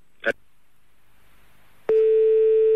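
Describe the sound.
A call-waiting tone cuts into a telephone line: a faint click, a quiet pause, then one steady, continuous mid-pitched electronic beep that holds to the end.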